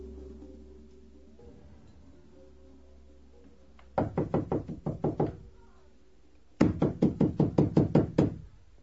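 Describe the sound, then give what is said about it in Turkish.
Urgent knocking on a house door: two loud bursts of rapid raps, the second longer than the first, with a quiet pause between them over a low background hum. “aç şu kapıyı! Kim çalıyorsa kıracak ayol, aç!”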